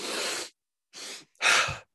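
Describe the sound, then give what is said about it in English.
Breathing exercise of a double inhale followed by a fast exhale, heard as three breathy bursts with no voice: a long first breath, a shorter second one, then a loud, rushing final breath. “inhale to that furthest point, and then you take another inhale, and you kind of fill up the lungs, and then you breathe that out fast.”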